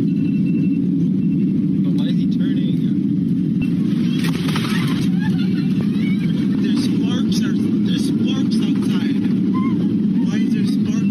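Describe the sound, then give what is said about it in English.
Passenger plane making a hard landing, recorded from inside the cabin: a loud, continuous roaring rumble runs throughout without a break, with people's voices heard over it. “Here's a clip from footage that a passenger took during the landing.”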